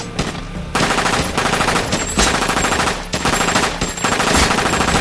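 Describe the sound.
An M249 light machine gun fires loud, dense automatic bursts. Several long strings of rapid shots run with brief pauses between them, and no voices are heard.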